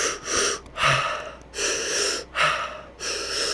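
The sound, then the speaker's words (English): Deep breathing exercise with belly and chest inhalations followed by exhalation: about five loud, airy breaths in a steady rhythm, each a whooshing rush of air separated by short pauses, with no talking. “so inhale through the belly, inhale through the chest, and then exhale.”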